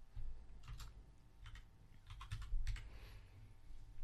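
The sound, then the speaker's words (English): Soft typing on a computer keyboard: scattered key clicks in short, irregular bursts, faint over a low background hum and with no talk. “I guess just type it in then.”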